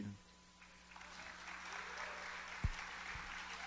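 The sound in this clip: Audience applause welcoming a guest onto a show: a steady wash of clapping that builds after a quieter start and carries on throughout, over a faint constant hum.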